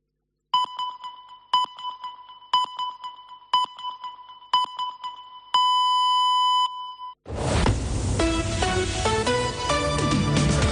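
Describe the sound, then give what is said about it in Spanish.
Radio time signal beeps: five short, evenly spaced high-pitched pips about a second apart, then one longer final tone, followed directly by loud music. “Senyals horàries de dos quarts de dues del migdia d'aquest dimecres, dia 20 de desembre.”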